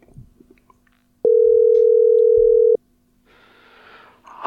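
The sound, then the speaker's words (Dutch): Telephone ringback tone on an outgoing call: one steady, mid-pitched tone lasting about a second and a half, loud and even. Faint rustling comes before it and a soft hiss after it, with no talking. “Hij gaat over.”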